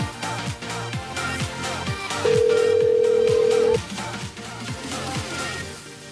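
Telephone call tones while dialing someone's other numbers, a single steady electronic tone held for about a second and a half in the middle, over a rhythmic backdrop.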